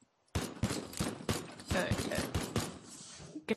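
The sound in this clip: Gunfire from weapons in a video game, a shotgun among them: many sharp, punchy shots in an irregular rhythm, fairly loud, with a final burst near the end.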